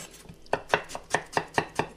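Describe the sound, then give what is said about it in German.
A knife chops an onion into small pieces, producing a steady, evenly spaced run of sharp, crisp taps, faint at first and then regular and distinct. “tue die ein bisschen klein schneiden. Und dann mache ich das gleiche mit der Zwiebel auch.”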